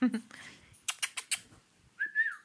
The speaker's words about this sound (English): Birdie, say hello. Yeah, I do. I love birds. They're really, really clever. Clever birdie.